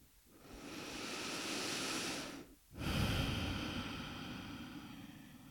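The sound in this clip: Deep, slow breathing during a guided heart-centred meditation: one long, breathy inhale, a brief pause, then an equally long, steady exhale, heard alone with no talk.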